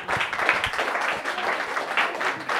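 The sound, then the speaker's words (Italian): Loud audience applause at a comedy night, a dense, steady patter of many hands clapping that holds at an even level for the whole short stretch. “Un grande applauso a Ciccio Rigoli e al sapore del mare.”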